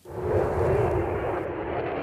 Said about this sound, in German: Die F-35 Lightning II. Auf Flugshows ist sie seit längerem zu sehen.